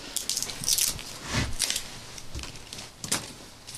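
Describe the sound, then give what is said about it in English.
Wood is being split into kindling, giving a few irregular cracking and crunching impacts, fairly faint, with light rustling between the strikes. “So you're making kindling?”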